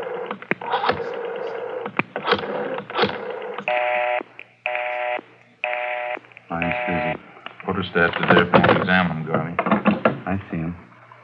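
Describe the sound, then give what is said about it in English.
A telephone is dialed for an outside line, giving a few evenly spaced electronic tone beeps in the middle, surrounded by voices and clattering handling noises. “Can I use the phone? I have to call my wife and let her know.”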